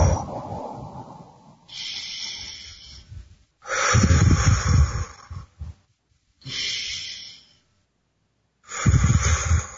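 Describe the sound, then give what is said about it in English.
Slow, deep breaths during a guided breathing exercise, heard as several long, loud airy inhales and exhales through the nose, separated by short silent pauses. “So let's breathe together.”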